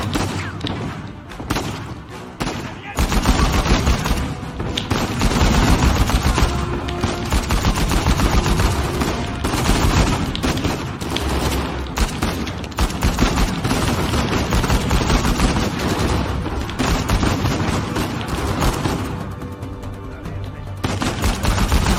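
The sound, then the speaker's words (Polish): A video game shootout with sustained gunfire. Rapid machine-gun bursts and heavy thuds form a loud, nearly continuous barrage for the whole stretch, with only brief dips in intensity. “słuchajcie, ale jest strzelanka.”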